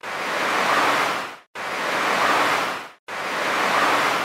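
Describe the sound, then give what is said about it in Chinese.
Surging waves in a sound effect roll in three broad, hissing swells, each building to a loud roar and then fading before the next. “而且在墙上面还传来一阵一阵的波涛澎湃的声音”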